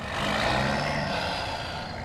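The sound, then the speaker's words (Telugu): A lorry drives away in a quiet area, its engine a broad, steady rumble that swells early and then eases only slightly as it continues. “ఆ ప్రాంత నిశ్శబ్దాన్ని మింగేస్తూ ఆ lorry శబ్దం చేస్తూ అక్కడి నుండి వెళ్ళిపోతూ ఉంది.”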